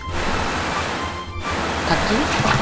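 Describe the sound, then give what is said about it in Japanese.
Rushing waterfall: a dense, continuous roar of falling water, loud and steady with a brief dip midway before it surges on. “滝ができちゃって行けなくなりました。”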